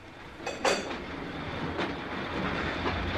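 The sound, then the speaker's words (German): Train wheels running on the rails as a night mail train nears Carlisle station: a faint, steady rumble with a few sharp rail clicks rising above it. “Planmäßig muss der Zug jetzt auf den Bahnhof von Carlisle einfahren.”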